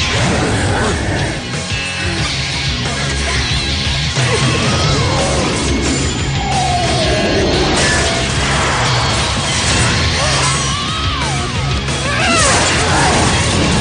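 Loud metallic crashes and clangs of a sword fight, a blade slicing through the steel of a halberd against an armored opponent, dense overlapping impacts crowding the whole stretch.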